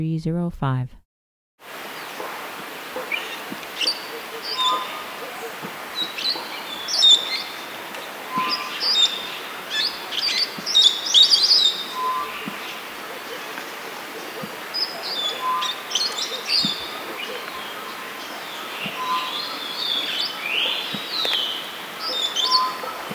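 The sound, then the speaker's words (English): A yellow-faced or yellow-headed parrot calls naturally with high, thin, musical notes, repeated many times at irregular intervals over a steady, quiet background hiss. “Yellow-faced or yellow-headed parrot calling naturally.”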